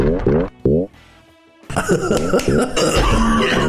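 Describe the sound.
An enemy character in a video game fight gives a few short, harsh coughs in quick succession. After a brief lull, a loud burst of dense game sounds follows.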